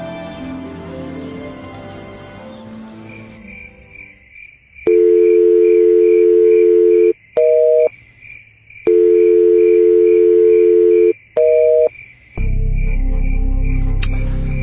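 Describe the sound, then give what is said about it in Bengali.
Phone tones sound on a call that fails to connect because the number is switched off: after a stretch of other low sound, two long steady low tones each end with a short blip. A faint, high, pulsing tone runs throughout. “কিরে, phone ধরলো? মা, কাল পর্যন্ত ring হচ্ছিল, আজকে তো বন্ধ বলতেছে।”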